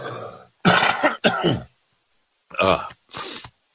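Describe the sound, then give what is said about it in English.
Harsh coughing from someone whose tension tamer tea went down the wrong pipe: a few separate sharp bursts close together, then a short pause and a couple more, with no talk over them. “My tension tamer tea went down the wrong windpipe.”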